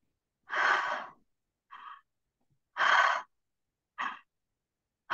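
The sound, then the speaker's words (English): Deep breaths drawn through the mouth and down into the belly, with longer, louder breaths alternating with shorter, softer ones in a slow, even rhythm. Breathy and airy, with no talking. “just breathing very deeply into the belly.”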